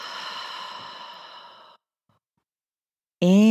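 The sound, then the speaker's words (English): A long, deep breath trails off slowly during a guided breathing exercise. It is followed by silence, and then a voice starts abruptly at the end. “Few more times. Inhale. And exhale.”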